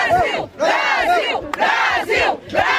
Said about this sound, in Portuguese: E mesmo com a celebração menor, não faltou animação no público.